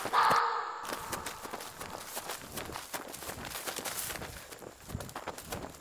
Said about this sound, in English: And they kept running.